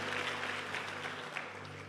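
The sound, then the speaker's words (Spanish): An audience applauds during a church service, giving the Lord a round of clapping. Dense, steady clapping holds at an even, fairly soft level for the whole stretch, with a low sustained hum underneath. “Pero si le va a dar un aplauso al Señor, apláudale de verdad.”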